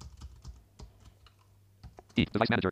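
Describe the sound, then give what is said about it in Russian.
Quiet, irregular keystrokes on a computer keyboard as someone types a search into a PC's Start menu, with several soft clicks spaced apart before a voice starts speaking near the end. “Я открываю меню «Пуск», пишу «Device Manager».”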